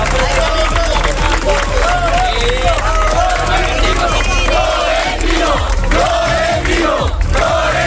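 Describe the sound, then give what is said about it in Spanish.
A crowd, mostly Real Madrid supporters, cheers and shouts to welcome club president Florentino Pérez in Ceuta. The many voices keep a loud, continuous roar with chant-like calls throughout. “Y así era recibido el máximo mandatario del Real Madrid por parte del público, la mayoría seguidores del equipo blanco, cuando veían al presidente allí en su ciudad.”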